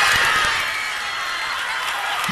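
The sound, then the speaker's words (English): An onstage audience reacts with a loud wash of crowd noise and cheering after an ornament drops unexpectedly from backstage. The noise is sustained across the whole short clip. “And then all of a sudden this ornament comes dropping from the back backstage like it onto this. Down. It rolls down and she's like, what? And then listen how the audience reacts.”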